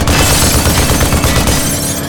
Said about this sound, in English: The soldier paused to align his weapon again and fired another burst.